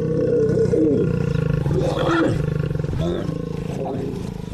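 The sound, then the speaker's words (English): Lions roar in a played recording of the calls they make among themselves, a deep, loud, rumbling roar with overlapping grunts that carries through the whole clip and eases slightly near the end. “So it's like lions having conversation. And so at 10 meters away, the wildlife would hear either humans chattering away, right? Or would hear lions chattering away.”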